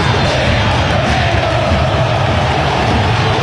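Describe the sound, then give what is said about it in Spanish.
Football stadium crowd of Cerro supporters roaring and cheering during a match, a loud, dense wall of massed voices with a low rumbling undertone that stays constant throughout without any break. “Impresionante, público, cómo está apretando, señores.”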